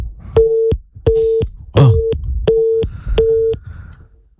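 A telephone busy tone follows a dropped call with a guest: five evenly spaced pulses of a steady mid-pitched tone, with a brief noisy burst over the third, fading slightly at the end.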